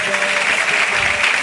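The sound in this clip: Crowd clapping at a religious chanting gathering, answering a call to clap, forms a dense, continuous wash of hand claps with a voice faintly present beneath.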